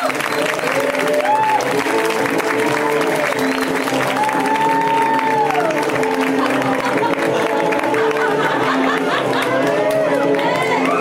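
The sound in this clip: Audience applause and cheering for comic Candy Lawrence, a continuous, loud clapping wash mixed with crowd voices and occasional whoops.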